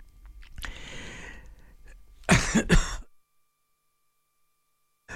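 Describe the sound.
A cough clearing a tickle in the throat, two short harsh bursts in quick succession, loud and alone, followed by silence.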